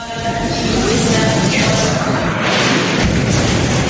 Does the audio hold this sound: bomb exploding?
yes